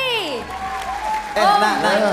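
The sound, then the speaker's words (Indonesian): Audience applause for a guest on a singing talent show, a steady wash of clapping beneath voices that swells louder in the second half. “sekali lagi tepuk tangan dong buat Gigi”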